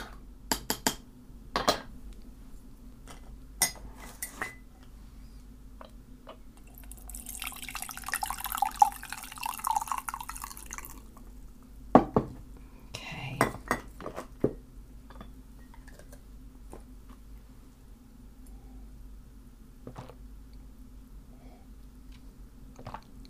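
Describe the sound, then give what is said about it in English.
A spoon stirs a cup of green tea, giving a few faint clinks and taps with soft liquid sounds and a brief wash of watery noise in the middle. “I think I need some green tea at this stage, actually. Just give this a bit of a stir.”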